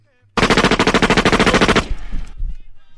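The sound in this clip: Firing-squad gunfire at an execution: a loud, dense burst of many rapid shots in quick succession, then a trailing rumble as the volley dies away.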